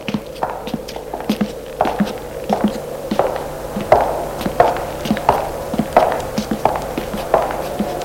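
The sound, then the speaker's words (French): Footsteps following someone through a ruined city: a long, regular series of crisp taps at an even walking pace, heard alone with no talk. “Il n'entend des pas derrière lui. Il se retourne et ne voit rien. Les pas continuent. Ses pas se rapprochent de plus en plus.”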